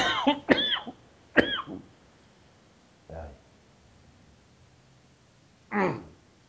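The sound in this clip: Soft coughing and throat clearing, quiet, with a cluster of rough coughs at the start and then two more isolated coughs separated by long silent pauses.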